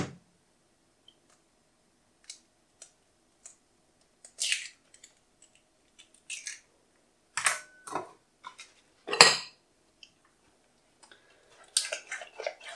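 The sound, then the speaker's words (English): An egg is being mixed into flour batter, heard as faint, irregular scrapes and clicks of stirring that come in sparse, short bursts separated by near silence. “So mix that final egg in, and it's at this point here we want to make sure that we've got everything incorporated, so all of that flour is incorporated.”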